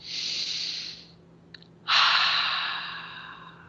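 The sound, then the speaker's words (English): Deep breathing during a guided relaxation exercise: two long, airy breaths separated by a short pause, the second louder and fuller than the first, with no talking. “And I would really like you to take a few deep breaths. Oh, let's do that first”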